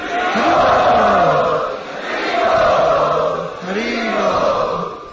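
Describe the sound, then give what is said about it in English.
An audience chants loudly in unison to welcome guests at a program, the voices swelling in three long, sustained phrases. “We would like to welcome all of these special guests to our program today by loudly chanting.”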